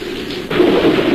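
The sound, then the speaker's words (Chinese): Thunder rolls through heavy spring rain: a steady rain hiss thickens midway into a louder, low rumbling swell that holds to the end. “哟，打雷了。”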